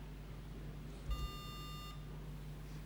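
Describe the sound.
A computer-generated beep tone plays once, steady and unbroken for about 800 milliseconds. It is faint, over a constant low hum.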